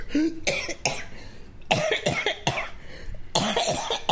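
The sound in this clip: A woman coughing and choking: many harsh, rasping coughs in uneven bursts and clusters, with brief gaps between them, loud and without talk.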